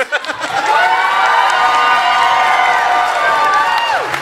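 Loud, sustained crowd cheering with shouts and whoops as an audience at a Star Wars obscure-character face-off votes for the character Fixer; the dense roar holds steady throughout.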